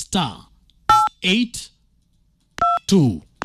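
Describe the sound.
Phone keypad tones as a star code is dialed, a few short, clear dual-tone beeps spaced between bursts of people talking.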